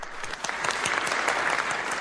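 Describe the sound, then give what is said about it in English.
Dense, continuous applause from a crowd after a head of state signs the European Union's Lisbon Treaty, many hands clapping steadily at an even loudness throughout. “Applause for Polish President Lech Kaczynski after signing his country up to the Lisbon Treaty”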